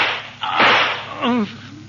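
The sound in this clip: A single pistol gunshot rings out as a sharp, loud crack with a short rough tail, followed by a brief vocal cry.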